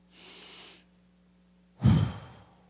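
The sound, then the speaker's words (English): A slow breath in, soft and airy, is followed after a pause by a louder, breathy exhale, heard alone over a faint low hum. “Inhale, exhale.”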